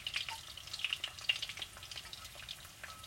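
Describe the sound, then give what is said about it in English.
Steady crackling sizzle of pork rinds frying in a pan just taken off the heat. Dense, sharp pops and hiss continue throughout, with no talking. “Alright, I'm turning it off the heat. So these guys can just fry up. I'll throw the other guys in here too.”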